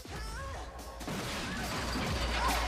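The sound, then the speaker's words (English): A wooden fence crashing down after being kicked during a sword fight: a loud smash, a brief break, then sustained heavy clattering and crunching noise. “He kicks Natalie against a fence, which collapses.”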